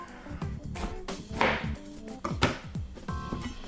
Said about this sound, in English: So all I'm doing is cutting the half. I cut it in half, and then I'm doing slices of the cauliflower.